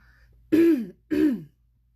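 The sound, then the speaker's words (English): A person clears their throat twice in quick succession. Each is a short, low, raspy, voiced rumble of about half a second, separated by a brief pause against near silence. “sorry about all the throat clearing.”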